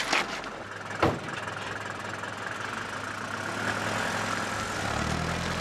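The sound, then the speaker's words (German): A taxi's engine rumbles steadily as the car drives off, a low, continuous drone that grows slightly louder in the second half, with one sharp click early on. “Es sind nur zwei ausgestiegen und das Taxi fährt weiter.”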